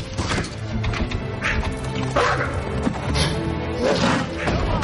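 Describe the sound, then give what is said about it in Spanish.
A wolf strikes a cage door, heard as heavy crashing thuds and beastly snarls within a loud, dense mix of noise that runs throughout. “El lobo de robo golpea la puerta de la jaula.”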